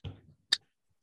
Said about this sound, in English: Ready for opening drink number two.